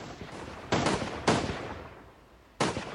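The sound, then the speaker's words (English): Musket fire: three sharp blasts, irregularly spaced, each opening with a loud crack and trailing off in a long, decaying rumble over a low background. “From the black pellworm, we suddenly saw musket fire, but it uh, simply bounced off the creature's steel hard shell.”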